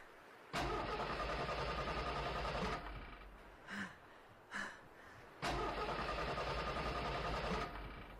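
A car engine cranks but fails to start: two long, loud churning bursts of about two seconds each, with a couple of brief softer thumps between them.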